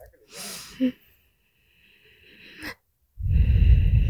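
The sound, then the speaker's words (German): Noisy breathing through nose and throat, with a few wheezy, snorting inhales separated by quiet, ending in a loud, rough, rushing breath. “Nein, ich atme.”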